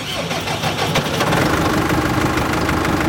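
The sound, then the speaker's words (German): A tractor engine drones as it drives with a mower attachment during early-morning hay mowing. The engine roars loudly and steadily throughout, with a dense, rough mechanical rumble and no talk. “Also wir fahren heute mit dem Mähwerk. Das ist immer die allererste Arbeit.”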